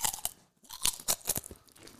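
Someone chewing crunchy food: many sharp, irregular crunches and bites follow one another with short gaps between them. No talking is heard.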